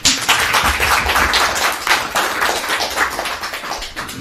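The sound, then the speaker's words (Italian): Steady applause from an audience at a political talk, dense, even clapping that holds at a constant loudness for about four seconds with no voices. “Un applauso.”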